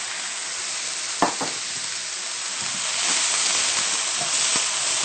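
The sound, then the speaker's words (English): Food seasoned with salt and pepper is stirred as it fries in a pan: a steady sizzle throughout, with a few sharp clicks of the utensil against the pan and the frying growing slightly louder midway. “You really want to stir most of the time that they're cooking to ensure that they cook evenly throughout.”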